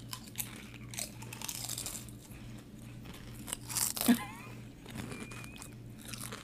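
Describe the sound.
Someone crunches a salt and vinegar flavoured snack, making faint crisp bites and chewing, with a few louder crunches standing out over a low steady hum.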